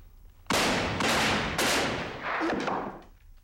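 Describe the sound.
Gunshots ring out in a film scene: a few loud, sharp blasts with long ragged tails follow one another over a few seconds. The later shots are slightly softer, and no one speaks.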